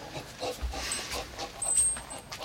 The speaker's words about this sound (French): Ça, c'est mon chien, ça. Ça, c'est mon chien. Il te reconnaît pas avec ton masque.